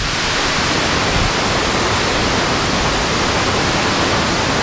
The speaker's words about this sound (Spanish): El río no pasa, el río ruge, como estamos comprobando en este salto de agua aquí en la mitad del puente en esta presa del Guadalquivir. Lo escuchamos en directo.